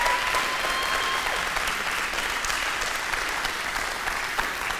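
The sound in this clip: A church audience applauds to welcome first-time visitors, dense and sustained clapping at a steady level for about five seconds, easing slightly at the close.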